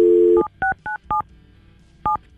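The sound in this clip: A telephone being dialed: a steady dial tone cuts off, then several short electronic keypad beeps follow in two quick groups separated by a brief pause. The tones are loud and clear, with no voices.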